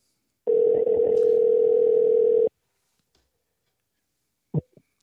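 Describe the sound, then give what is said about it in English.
A telephone dial tone sounds while a call is being placed: a single steady, even hum lasting about two seconds, followed by silence and a couple of short clicks. “So, let me call on my sister right now. Let me see if I can find a number.”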